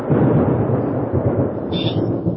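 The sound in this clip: Thunder rolls as a loud, continuous deep rumble that fills the whole stretch without any clear break, and no voices are heard.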